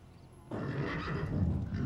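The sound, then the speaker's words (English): An agitated chestnut horse neighs inside a trailer, a loud, sustained whinny that bursts in abruptly after half a second of near quiet and carries on strongly to the end. “Inside, a chestnut horse becomes agitated, showing the white of its eye.”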